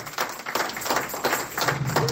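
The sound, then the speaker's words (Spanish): A church audience claps in a fairly even rhythm, with repeated hand claps and voices mixed in. “Regálele un aplauso, Señor, y póngase de pie.”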